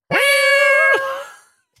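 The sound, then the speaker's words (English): A cat gives a single loud, drawn-out meow that holds a steady, tonal pitch for most of its length, then bends downward and fades away. A faint click follows. “That's a cat.”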